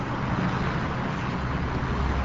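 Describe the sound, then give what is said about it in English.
Traffic zipping past a federally funded health clinic on East Washington Avenue, a steady, broad road roar that stays even throughout, with no voices. “Traffic zips by one of the city's federally funded health clinics on East Washington Avenue.”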